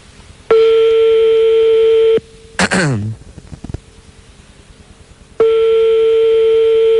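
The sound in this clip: Telephone ringback tone on an outgoing call: two long, steady, mid-pitched electronic tones, each lasting well over a second, separated by a quiet gap that holds a short burst of another sound.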